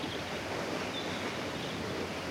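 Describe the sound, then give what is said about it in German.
A steady rushing roar of a waterfall pouring down a rock face, heard from the top of the falls: a continuous, even wash of water noise with no breaks, no distinct splashes and no voices. “hier oben über dem Wasserfall zu thronen und das Wasser bei seinem Weg die Felswand hinab zu beobachten”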